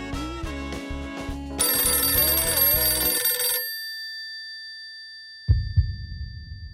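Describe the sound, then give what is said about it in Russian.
A telephone rings with an incoming long-distance call: a pulsing electronic ring of repeated beats, joined midway by brighter high tones, then fading away, followed by a brief low knock. “Звонок. Межгород.”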